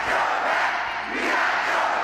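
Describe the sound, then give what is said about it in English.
Cheering from about 2,000 supporters at a political rally for President Biden in a packed school gym in Detroit, Michigan: a dense, continuous crowd roar with a brief dip midway before surging back. “2,000 supporters cheering President Biden in a packed school gym in the important battleground state, Michigan.”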